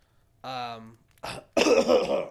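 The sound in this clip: Someone clearing their throat: a short voiced, buzzing hum followed by two rough, rasping bursts, the last one longer and loudest.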